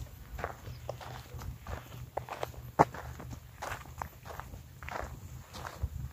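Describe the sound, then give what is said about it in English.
Footsteps walk through the dark, many soft, fairly regular steps at an unhurried pace with one sharper scuff partway through, over a faint steady hum. “See if I turn back and walk that way. Super dark. So maybe we'll just head. I'm gonna walk down to this sign here.”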